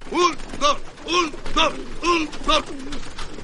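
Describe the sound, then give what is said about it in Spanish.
Pigeons cooing in a pigeon loft: a steady series of throaty, rounded coos, each a short arching call, repeating about every half second at a fairly loud level. “Luego, en el palomar, Ricardo dirige a las aves con una batuta.”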